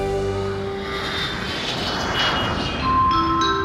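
An airplane engine roars steadily as the plane lands on Rarotonga, a Pacific island. The noise is broad and continuous, with a slight swell near the end.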